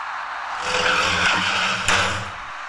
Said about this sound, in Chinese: 一辆正在向左转弯的深色小客因为采取措施不及，与其发生了相撞事故